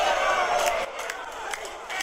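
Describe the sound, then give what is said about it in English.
Prerecorded studio audience cheering played during a battle rap show: a loud, dense crowd roar that cuts off abruptly partway through, leaving quieter noise with a few short bursts. “Man, the studio audience loves that. The studio audience love my shit. Yeah. I recorded that earlier.”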